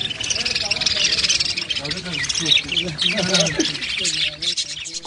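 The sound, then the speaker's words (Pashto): Many birds chirp and twitter without pause in a bird-market street in Jalalabad lined with bird-selling shops. The dense, high chatter runs throughout, with people talking underneath. “دا په جلال آباد کې د مرغانو د کوڅې په نامه ده. په دې کوڅه کې د 40 کلونو څخه زیات وخت کېږي چې د مرغانو د پلورلو 40 دوکانونه موجود او ډول ډول مرغان پکې پلورل کېږي.”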